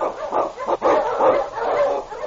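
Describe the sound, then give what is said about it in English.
Husky sled dogs bark and yelp excitedly as they are unchained for a run through Yukon storm and snow. Several dogs overlap in a continuous, wavering chorus of mid-pitched barks and yips. “Unchain! On, you huskies!”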